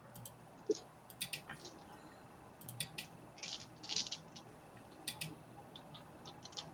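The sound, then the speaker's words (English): Many dice roll across a table during a tabletop role-playing game, giving faint, scattered clicks and clacks that come in irregular bursts over several seconds with no talk. “Any more dice? No. That sounded like a lot of dice.”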